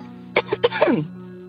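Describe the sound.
Throat clearing: a few short, rough bursts followed by a longer gravelly rasp that trails off, fairly loud and with no talk over it.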